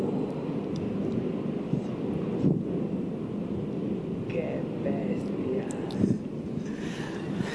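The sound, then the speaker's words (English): Roar of a roiling, incandescent lava lake blended with wind: a dense, steady low rumble with hiss above it, continuous throughout, swelling briefly twice. “And this lava lake being absolutely roiling and incandescent, even at hundreds of feet down, it was too bright for us to look at. Soon you can hear the sound of the lake itself over the wind.”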